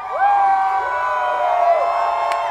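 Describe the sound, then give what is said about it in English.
Hundreds of people cheer outdoors on Monument Avenue after a statue is taken down from its 40-foot pedestal. Loud, continuous crowd roar with high whoops and shouts rising above it throughout. “That's the sound of hundreds of people cheering on Monument Avenue after the statue of Robert E. Lee was taken down from its 40-foot-tall pedestal yesterday.”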